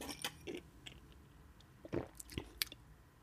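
Quiet wet mouth sounds of someone sipping and tasting a copper-coloured, foamy beer: several short slurps and smacks spaced irregularly, with no talk.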